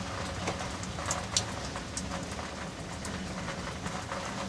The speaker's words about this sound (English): Damnable Blackness Podcast, and tonight, in the rain, in the muddled gray night sky